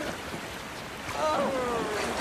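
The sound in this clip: River water washes around a raft being paddled, a faint, steady rushing that grows louder partway through, with a voice briefly heard.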